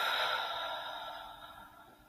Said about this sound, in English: Take a deep breath in and out.